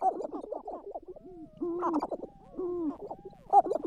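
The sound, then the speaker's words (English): Sharp-tailed grouse calling: many overlapping hooting, cooing and cackling calls at mixed pitches, some sliding in pitch, in irregular bursts with short pauses between them. “That's the sound of the sharp-tailed grouse.”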